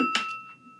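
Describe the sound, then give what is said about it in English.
A single bell ring, heard alone: a sharp bright strike followed by a steady, sustained high tone that holds and fades slightly within about a second. “Yeah, that's the sound of the bell.”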